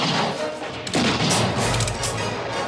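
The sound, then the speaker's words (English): Gunshots ring out during a western film shootout, a sharp blast cutting through dense, noisy action that stays loud throughout. “Chavez tries to make his escape. He shoots one of Garrett's men but is hit himself. Billy's nearly hit, but the bullet flies just above his head.”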